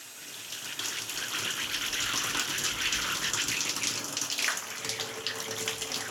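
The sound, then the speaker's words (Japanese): Water runs steadily from a salon shampoo tap while hair is washed, a soft, unbroken rushing hiss that continues without pause and without voices. “それじゃあまずは頭から洗っていくので、しっかり目を閉じていてくださいね。”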